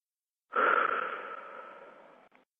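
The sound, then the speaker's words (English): A single deep, airy breath that starts strongly and slowly fades over about two seconds, with a soft wheezy tone, alone. “Take a breath.”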